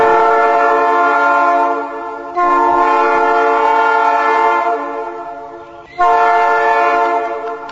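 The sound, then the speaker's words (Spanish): A train horn on a historic rail line through the Córdoba hills toward Cruz del Eje, Argentina, sounds in three long, loud, steady blasts. It has a rich harmonic tone, and each blast fades slightly before the next begins. “El tren llegó a este punto del país a fines del siglo XIX y tímidamente, algunos días, aún resuena su bocina.”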